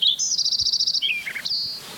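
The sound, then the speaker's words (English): Several birds singing: a rapid run of high repeated chirps, then a few lower notes and a sustained high whistle, over a steady insect-like buzz. “There's now the one in the background's a different bird.”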